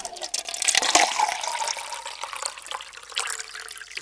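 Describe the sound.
Drinking water poured out, a continuous splashing, gurgling stream that swells and eases throughout, fairly soft.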